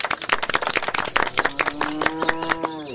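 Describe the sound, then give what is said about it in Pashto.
People clapping hands at a village gathering, many quick, sharp claps in an irregular patter, joined in the second half by a sustained tonal sound. “وایم لاسونه ورته وپړکا وای”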